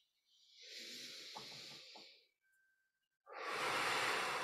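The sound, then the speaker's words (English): A deep breath is drawn in slowly and steadily for about two seconds, followed by a brief pause and then a strong, rushing exhale. “Take a deep breath.”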